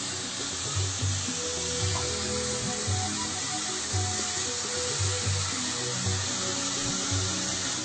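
Sauce sizzling in a pan while it is stirred, a loud, continuous hiss with a faint low rumble that repeats beneath it, steady from start to end.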